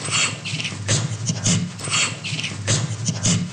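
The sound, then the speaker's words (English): Gorilla laughter made of breathy staccato pants: many rapid exhaled bursts in rhythmic clusters, fairly quiet and rough, with no talking. “Gorilla laughter is more of a staccato-like laughter.”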